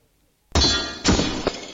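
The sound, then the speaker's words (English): Sword striking sword in the fantasy RPG game Shield Spell Sword: a sharp metallic clang bursts out of silence, followed by two further ringing impacts that fade off. “Sword strikes sword.”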